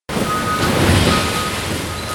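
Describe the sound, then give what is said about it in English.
A garbage truck dumps roughly 8,000 pounds of recyclables, milk jugs, pop cans and more, onto the floor of a recycling plant in Southfield, making a loud, steady roaring clatter that holds unbroken throughout. “This is the sound of a garbage truck dumping its entire contents on the floor of Re Community Recycling in Southfield.”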